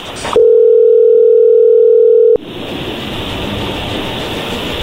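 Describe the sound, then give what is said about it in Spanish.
A telephone dial tone while placing a call to Colombia, a loud, steady, unbroken hum lasting about two seconds before it cuts off abruptly into a continuous hiss of line noise. “Vamos a llamarle a Colombia, a Rocío”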